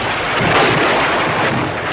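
A thunderstorm sound effect: a loud, continuous rumbling roar of thunder and storm noise that holds steady throughout, with no voices.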